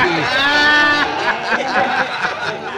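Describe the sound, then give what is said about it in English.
Stubborn goats bleat in a nasal, wavering chorus: one long quavering cry first, then a run of shorter, broken bleats. “They listen to you, Pancho, but they do not move. Use a whip on those stubborn goats and they'll move.”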